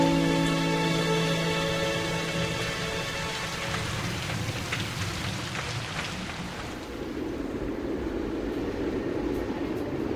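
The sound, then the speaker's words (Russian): Rain falling outside an apartment window makes a steady, dense hiss that stays loud and even throughout, with no voices. “За окном дождь.”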